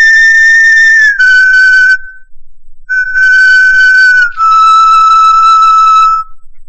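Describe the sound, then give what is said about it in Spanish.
Clear, high whistling notes from a 9,000-year-old flute made of crane wing bone play a short melody. Four sustained tones with brief gaps step gradually lower in pitch and sound loud and pure with no other sound behind them. “Ese es el sonido de una flauta de 9.000 años de antigüedad.”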